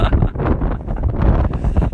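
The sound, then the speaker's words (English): Wind blows straight into a microphone outdoors and produces loud, rumbling buffeting. Low, uneven gusts surge and dip continuously without a break, and no voices come through. “Oh, the wind is gonna be a problem for this recording, I can tell.”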